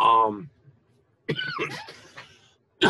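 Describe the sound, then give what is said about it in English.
A cough breaks into spoken talk, a short harsh burst among voiced speech fragments separated by brief silences. “I get choked up when I talk about appearances. excuse me. I don't have the cough filter here.”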